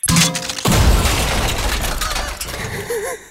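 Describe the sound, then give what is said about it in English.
A shotgun-blast sound effect used to signal 'delete' gives a sudden loud burst followed by a long, noisy, rumbling tail that gradually fades. “Realise that it's the sound of like a shotgun for delete it. Really delete it.”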